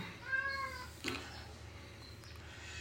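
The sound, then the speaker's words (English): Baby chicks peeping: a quick cluster of high, thin chirps at the start, a brief click, then one fainter, higher peep near the end. “It's not cats, it's chirping chickens. We hatched out some baby chicks, and I'm sure everybody on the podcast hears that.”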